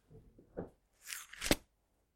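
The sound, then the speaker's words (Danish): A page is torn out of a Bible: a few short, rasping paper tears, with the last burst the sharpest and loudest. “Jeg river den side ud af Bibelen.”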